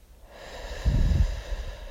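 A deep inhale through the nose during a guided eyes-closed breathing exercise: one soft, breathy rush lasting about half a second, with no talking.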